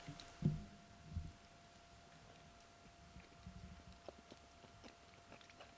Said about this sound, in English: Okay, so I'm just about to chomp into for the first time ever, I think, having a proper triple fried egg sandwich with chili sauce and chutney.